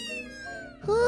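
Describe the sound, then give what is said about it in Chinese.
A small cat meows in a yard: two meows, the first long and gradually falling in pitch and fading, the second louder with a rising pitch. “这个声音可是从院子里来的哦。是什么呢？你看，小猫咪跳进院子了。”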